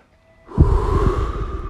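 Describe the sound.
A person drawing a long inhale from a hit of smoke, a steady breathy hiss that starts abruptly after a brief near-silence and holds for over a second.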